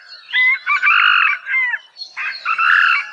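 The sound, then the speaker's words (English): A moa, the Hawaiian wild chicken, crows in two loud bursts of raspy, harmonic syllables. The first burst is longer and broken into several parts, and the second follows after a brief gap. “Moa can also be distinguished by their call. The last syllable in the rooster's four-syllable cock-a-doodle-doo call is much shorter in the moa than the domestic chicken. Here's the call of the moa.”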